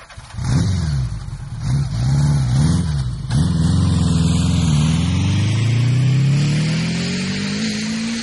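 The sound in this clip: A motorbike engine accelerates fast, revving loudly and steadily with its pitch rising sharply over the last few seconds, after a few shorter revs at the start; no voices.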